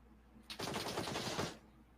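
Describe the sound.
M24 sniper rifle gunfire in a video game: one quiet, sharp burst of rapid cracking lasting about a second, then faint background.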